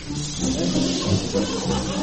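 Audience hissing at a stage villain, the husband who deserted his wife and child: a sustained, broad hiss from many people that runs through the whole clip with slight swells.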